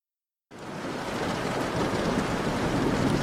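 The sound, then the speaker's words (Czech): Steady rain from a summer thunderstorm starts abruptly and continues as a dense, even hiss, with no distinct thunderclap standing out. “za okny zní letní bouřka”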